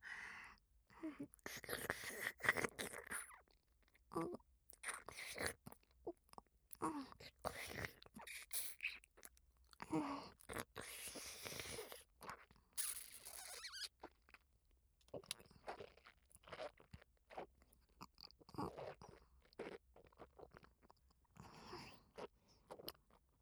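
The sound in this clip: Close, quiet crunching and chewing of food: many crisp bites and wet chews in an irregular rhythm, with soft whispered speech and breaths between mouthfuls.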